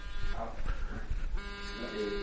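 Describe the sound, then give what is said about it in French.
A mobile phone rings with a steady, buzzy electronic tone under French speech. Partway through, the ring shifts to a brighter, fuller sound. “Et voilà, j'ai mon téléphone qui sonne.”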